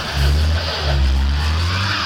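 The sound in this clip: A car revs hard and spins its wheels while trying to climb a wet slope in the rain, a loud, sustained low engine roar with broad hissing noise that surges briefly and then holds steady.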